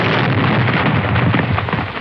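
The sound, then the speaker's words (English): An explosion sound effect played on a radio show: a loud, dense roaring rumble that fills the whole two seconds with heavy low-end weight and no pause. “it's not the same explosion. It's not the same one. Haven't found it. No, that's not the one.”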